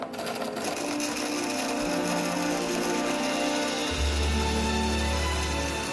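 A kitchen machine whirs steadily while chopping dates for a raw Christmas treat mixture, a constant motor drone with a rattling texture that deepens into a heavier, lower hum toward the end.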